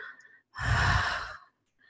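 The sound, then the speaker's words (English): One long, full exhale during a guided breathing meditation, soft and airy like a whispered sigh, swelling and then fading between quiet pauses. “Moving your breath now to a gentle pace, but still very full, like a whisper.”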